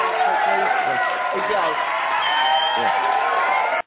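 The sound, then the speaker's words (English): A studio audience on a call-in show cheers and whoops, a loud, continuous wash of crowd noise with scattered shouts and claps that runs for about four seconds before cutting off abruptly. “Not too much, studio audience. Y'all going a little bit too crazy.”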